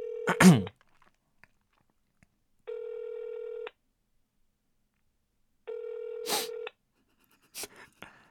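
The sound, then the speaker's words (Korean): A telephone call being placed: a short click and tone, then two steady one-second ringback tones about two seconds apart, followed by a few faint clicks. “네, 한번 전화해보세요.”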